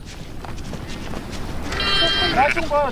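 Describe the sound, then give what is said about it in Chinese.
A lamb that strayed from the flock during a commotion bleats a few times near the end, high wavering cries over a rough, noisy background with people talking. “冷本成功找回了因骚乱而掉队的羊羔”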